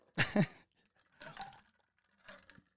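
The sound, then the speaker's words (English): Someone chews ice, producing three separate crunching bursts with quiet pauses between them; the first crunch is the loudest and the later two are softer. “isn't that a good noise? ASMR, right? I love ice.”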